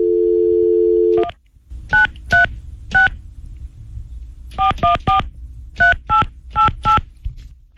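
A telephone number is dialed with touch-tone beeps: a steady dial tone runs briefly, then stops, followed by ten short keypad tones in uneven bursts over a low background hum.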